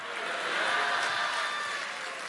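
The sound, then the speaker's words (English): An audience claps its hands in praise during a church sermon, a dense, sustained wash of applause that holds at an even, fairly loud level throughout. “give the Lord a great hand clap all over this place”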